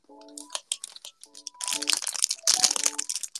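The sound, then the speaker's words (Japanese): Crunching of hard rock candy, the crystallised sugar breaking between the teeth in dense, dry, crackling bursts that grow louder and more continuous through the second half, with brief humming vocal sounds early on. “次ロックキャンディーね。ロックキャンディーが一番やばい。”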